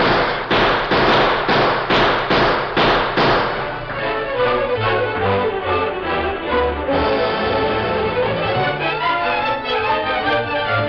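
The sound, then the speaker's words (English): Gunfire comes from many men shooting at a house from the hills. Sharp, loud shots fall in a rapid, regular string, then blur into a dense, continuous crackle of firing with no voices. “There's a house, Tonto. There must be 50 men shooting at it from those hills.”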